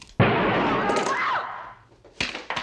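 A gunshot rings out as a sudden loud blast with a long, noisy decay, and a second sharp noise follows shortly after.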